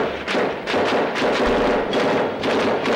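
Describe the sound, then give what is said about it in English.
Automatic weapons fire, likely an assault-style rifle, during a 1997 shootout in a normally quiet Los Angeles residential neighborhood: many loud, sharp bursts and cracks run together into a dense, continuous volley throughout. “The sounds of automatic weapons fire still ring in the ears of people in this normally quiet Los Angeles neighborhood.”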